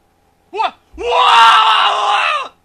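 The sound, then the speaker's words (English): A man's scream sound effect: a short yelp that rises and falls, then a long, loud, sustained scream lasting about a second and a half before it cuts off. “Man scream.”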